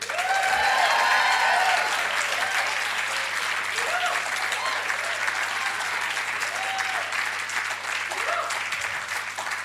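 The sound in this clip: Loud, steady applause and cheering from a science comedy debate audience backing the negative team, sustained for the whole stretch and easing only slightly toward the end.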